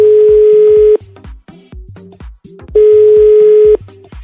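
While a call is being placed, a telephone line tone sounds in two loud, steady bursts of about a second each, separated by a stretch of softer, broken sounds.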